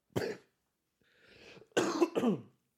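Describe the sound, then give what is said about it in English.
A person coughs a few times, with one sharp, harsh cough followed by a quieter wheezy breath and then a pair of loud, rough coughs close together. “That was me coughing.”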